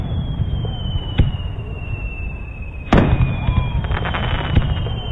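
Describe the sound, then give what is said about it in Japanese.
Fireworks seen from a balcony whistle and burst. A long, thin whistling tone slowly falls in pitch, broken by a sharp bang early on and a louder burst midway, followed by crackling. “ベランダでビールを飲みながら花火なんて最高の贅沢だね。”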